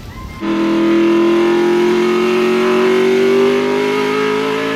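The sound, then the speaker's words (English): Loud, sustained engine roar from Juan Manuel Fangio's Mercedes race car driving past crash wreckage on the track. The roar bursts in after a brief quieter start and holds steady, its pitch slowly climbing. “On the track, Juan Miguel Fangio's Mercedes navigates past the wreckage.”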